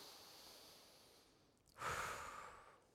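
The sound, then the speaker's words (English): A deep breath drawn in during a church prayer gathering: one loud, airy inhale that starts abruptly after a quiet stretch, then slowly fades, with no talk. “Okay, take a deep breath with me.”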